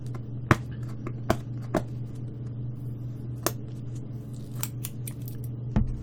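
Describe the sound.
Packing tape being cut to open a tightly sealed box gives a few sharp, crisp snipping sounds spaced irregularly over a steady low hum.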